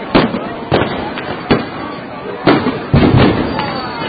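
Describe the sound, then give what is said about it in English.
Loud booming explosions like artillery shells go off as several sharp blasts at uneven intervals. Each hits hard and then decays into a brief rumble, and two come close together near the end. “That was like an artillery shell of some sort.”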